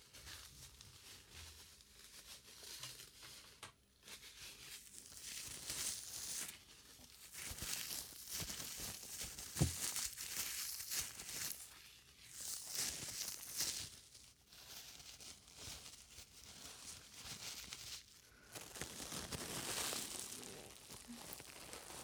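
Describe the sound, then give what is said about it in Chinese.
Soft rubbing and rustling as unabsorbed massage oil is wiped off a man's skin, a quiet continuous swish that swells and eases unevenly, with no talk. “现在帮先生擦掉没有被吸收的按摩油。”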